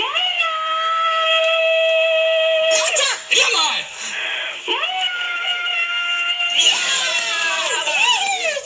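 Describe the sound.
A person screams a long, drawn-out "moo", imitating a cow during a shouting game: a loud, sustained, harmonic cry breaks into shorter yelps, then a second long, wavering moo follows.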